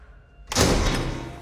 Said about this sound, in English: He glances back as the doors close behind him.